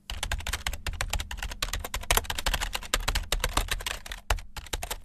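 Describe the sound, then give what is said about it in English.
Fast typing on a computer keyboard: dense, rapid keystroke clicks run almost without a break for five seconds, with only a few tiny pauses and no voices. “then typed as fast as he could”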